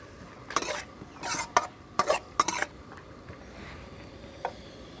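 Stir-frying soft noodles with mushrooms in a pan over medium heat: several brisk scraping and clattering strokes of a utensil against the pan, grouped in short bursts, then a pause and one last light knock.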